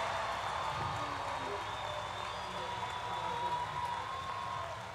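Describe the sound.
Faint audience applause at a live radio show, a soft continuous patter of many hands clapping that holds steady, then tapers slightly at the end.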